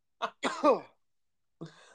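A person coughs and chokes after water went down the wrong pipe: a short cough, then a longer raspy hacking burst, and after a pause one more rough cough.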